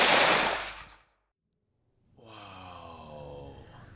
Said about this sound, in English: raises his rifle and states, I'll settle you with a bullet, and squeezes the trigger